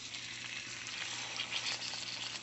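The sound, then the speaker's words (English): Pork chop sizzling on a hot griddle, a faint, even hiss of frying with fine crackle and no talk over it. “First thing to do is get this pork chop on a hot griddle.”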